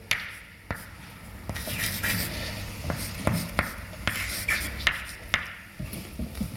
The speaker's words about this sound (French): je vais l'écrire même si on ne va pas l'utiliser